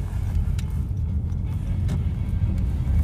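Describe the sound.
Steady low rumble of a car driving along during a ride, a constant dull road and engine drone with no talking.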